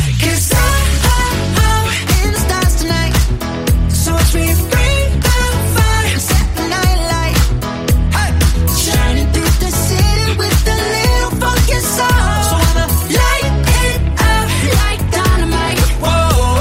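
A K-pop song by a famous boy band plays loud and continuously, with dense full-band music over a steady driving beat throughout.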